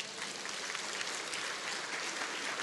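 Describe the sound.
Applause from a church audience, a steady wash of many hands clapping at moderate, even loudness throughout with no voices over it.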